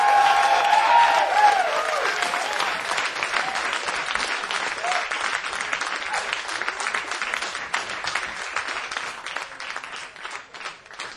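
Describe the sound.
Loud audience applause welcomes a performer onto a concert stage. Dense clapping is mixed with a brief whistle or whoop at the start, then holds steady for several seconds before slowly thinning and fading.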